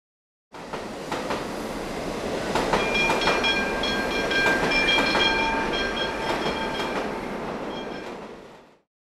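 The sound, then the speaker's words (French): A tram passes on rails with a steady, loud rumble of wheels, scattered rhythmic clicks and sustained high metallic squeals and whines, fading in at the start and out at the end. “I can hear a tram. J'entends un tram.”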